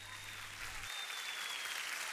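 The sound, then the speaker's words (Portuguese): Applause on a Portuguese-language radio show, a continuous, even round of clapping from an audience, fairly soft, over a low hum that drops out early on. “Não era preciso aplausos, mas pronto, aceita-se na mesma.”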